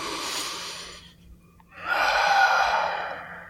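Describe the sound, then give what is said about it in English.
Deep meditation breathing, in through the nose and out through the mouth: a soft hissing breath, a short pause, then a longer, louder breath out that slowly fades. “the first thing that we do when we meditate is we take 3 deep breaths in through the nose and out through the mouth.”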